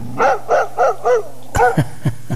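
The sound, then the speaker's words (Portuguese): A dog barks in a rapid series: evenly spaced, tonal barks first, then a louder, harsher burst and several shorter yaps, over a faint steady low hum. “Vai soltar o cachorro? Põe o cachorro, rapaz.”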